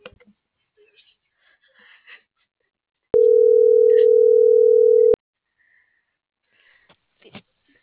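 Ringback tone of an unanswered telephone call: a single steady, mid-pitched electronic tone lasting about two seconds, with faint sniffs and rustling before and after.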